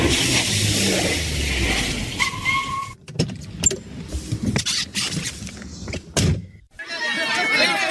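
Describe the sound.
Car pulling over to the roadside and stopping, its low engine rumble easing off, then a few sharp clicks and knocks with short quiet gaps between them.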